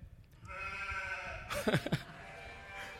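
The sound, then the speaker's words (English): A sheep gives a single quavering bleat that rises briefly out of a steady, faint background hum and then fades back into it. “Sheep, yeah.”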